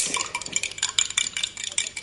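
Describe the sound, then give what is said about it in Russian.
A spoon clinks quickly in a tea cup while stirring sugar, making many light, bright metallic taps in an uneven rhythm, fairly faint and with no talk. “А зачем же вы так звените ложками, а? Чтоб сахар лучше размешать.”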